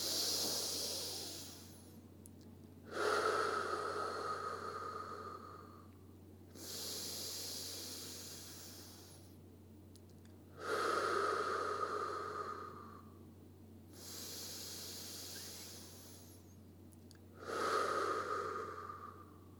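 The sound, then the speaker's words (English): Slow breathing in through the nose during a guided meditation, about three unhurried breath cycles with long, airy, hissing breaths and pauses between them, over a steady low hum. “For three breaths, in through the nose,”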